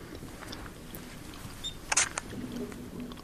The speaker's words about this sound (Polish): Wiesz co? Zrobię zdjęcie. Nigdy jeszcze nie fotografowałam przy świetle świecy.